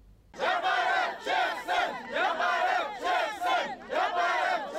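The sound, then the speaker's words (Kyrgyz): Over 500 traders chant in unison at a protest outside the government building in Kyrgyzstan, opposing cash-register rules. The loud, rhythmic chant repeats in several forceful bursts with brief dips between them. “Өкмөт үйүнүн алдына чогулган 500'ден ашык соодагер ККМ-ге ар кандай себептерден улам каршы болууда.”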